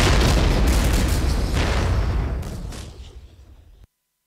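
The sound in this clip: Explosion of a mine in a minefield, a loud, dense booming roar with crackling bursts that holds for a few seconds, then fades gradually before cutting off abruptly.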